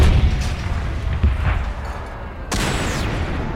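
An artillery gun fires at the tripod of a Martian war machine in a battle scene: a low rumbling bed, then one sudden, loud, sharp boom that carries into a sustained roar.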